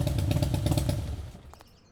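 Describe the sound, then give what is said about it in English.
A Harley-Davidson Blackline motorcycle rides past with a rough, pulsing engine roar that fades away in the last half-second, followed by a light clatter and then near silence. “So, did you enjoy your test drive, Mr. Pemberton? Yeah, it was great. Handles beautifully. Test ride your new life on a Harley-Davidson Blackline.”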